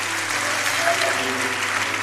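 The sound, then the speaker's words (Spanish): A church audience applauds during a worship service, giving an offering of applause. The clapping is thick, even and continuous, with no gaps or pauses. “Eso mereció una ofrenda de aplausos para el Rey de Reyes.”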